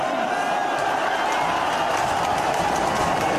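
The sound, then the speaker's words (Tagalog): Crowd watching Manny Pacquiao knock down Keith Thurman in the first round of their boxing match, gathered at viewing venues such as a military theater, producing a steady, dense roar of cheering and clapping with no break. “dumagundong ang mga venue dahil sa hiyawan ng mga manonood.”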